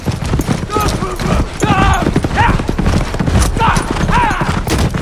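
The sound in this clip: Racehorses gallop, hooves pounding in a fast, dense, loud rhythm throughout, with voices or calls rising above the drumming.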